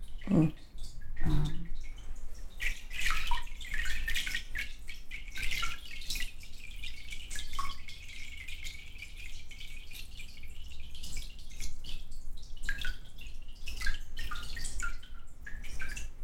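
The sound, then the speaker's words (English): Water slowly draining from cotton and abaca paper pulp that was left in the beater over an hour: a soft continuous trickle with many scattered drips and small splashes, quiet and steady throughout. “this is more of a slow draining pulp because I left it in the beater over an hour. And there's some avoca in there too. If it was just straight cotton, it probably would drain a lot faster.”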